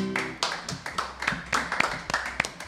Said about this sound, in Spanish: Me gusta porque a poquito se va sumando, ¿viste? El aplauso tímido, ¿viste?